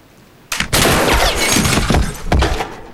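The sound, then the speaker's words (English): Light fittings explode and roof tiles fall in a church: a sudden loud burst of dense crashing and shattering debris, with a few sharper cracks breaking through. “two more prospective buyers are shown around the church and put off by falling roof tiles and exploding light fittings”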